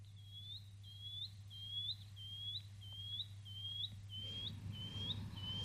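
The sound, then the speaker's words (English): Shining cuckoo call: a faint, long series of thin, high, upslurred whistled notes repeated at a steady pace, with a low constant hum underneath. “Now, the shining cuckoo is kind of an interesting bird. It sounds like this, actually.”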